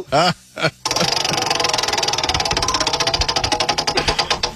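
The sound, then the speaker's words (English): A prize wheel spun by hand gives off rapid, steady ticking as its pointer clicks past the pegs. Many clicks run together, loud and evenly spaced, right after a brief voice. “I'm going to grab the wheel and give it another spin.”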